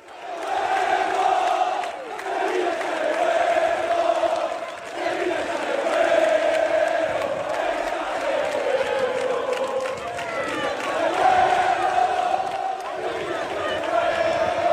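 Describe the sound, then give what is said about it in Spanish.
A large crowd of Sevilla football fans cheers and chants to welcome the players the day before a match, a loud, sustained wall of voices that swells and dips but never stops. “Parece ambiente de partido, pero es ambiente para recibir a los jugadores antes de un partido, el día antes, porque el Sevilla juega mañana”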